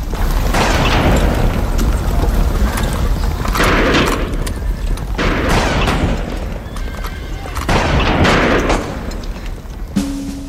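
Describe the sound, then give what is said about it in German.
Rifle shots fired by a man who runs from a front garden onto a country road in wartime, several loud, sharp booms within a dense, noisy mix that also holds horses whinnying and hooves clattering. “Jules-André mit dem Gewehr in der Hand rennt aus dem Vorgarten auf die Landstraße, legt an und schießt.”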